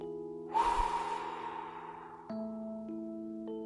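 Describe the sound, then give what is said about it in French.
A long breath out during a guided group breathing exercise: a soft, breathy rush of air lasting nearly two seconds and slowly fading. It sits over steady sustained background tones. “Et maintenant, on expire.”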